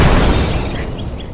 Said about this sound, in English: Oh, look at that. He blew up anyway.